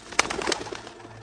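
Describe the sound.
Pigeons cooing: a brief burst of soft, low coos with a sharp noisy sound near the start, fairly faint overall.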